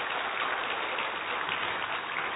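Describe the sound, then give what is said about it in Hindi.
Applause from an audience thanking a woman at an event, a steady, dulled wash of clapping at even loudness with no single claps standing out. “एक बार दीदी के लिए तालियां। ताली बजाने से exercise भी होता है, अच्छा बढ़िया, ब्लड सर्कुलेशन भी बढ़िया है यार।”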